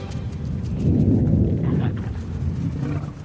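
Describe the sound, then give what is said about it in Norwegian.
A deep, broad rumble like thunder rolls on steadily for about three seconds, swelling slightly near the start and then easing off, with no voices over it. “Jeg håper det var magen din. Det sikkert bare torden vi hører.”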